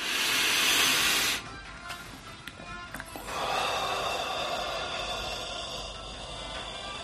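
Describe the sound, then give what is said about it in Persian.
A deep breath: a loud, airy rush of breath lasting over a second, then after a short pause a second, longer and softer stream of air that slowly fades. “یه نفس عمیق بکش تا بهت بگم یعنی چی. این نفس یعنی زندگی الان”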